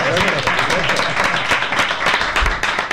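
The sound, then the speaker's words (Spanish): Applause for the crowd gathered in a town square, a dense, steady wash of many hands clapping that holds level throughout, with voices mixed in. “Bueno, otro aplauso para la gente que está en la plaza.”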